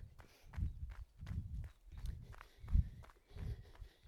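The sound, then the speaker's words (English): Footsteps of a slow, upright jog that barely moves forward, knees raised high, landing as soft low thuds in a steady, even rhythm throughout. “let's just go for another quick jog again. Super easy, barely moving forward. But I'm bringing the knees up”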